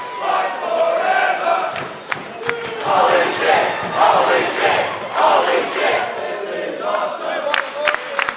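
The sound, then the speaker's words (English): A wrestling show crowd chants and cheers for the wrestlers. Many voices form a loud, sustained roar that swells and dips throughout, with occasional sharper shouts. “a chance for the crowd to whoop and holler as they get behind their favourite. Half of the fun of watching the show is the audience participation. It's quite infectious. Some reactions have clearly evolved over time. There's chants about the match.”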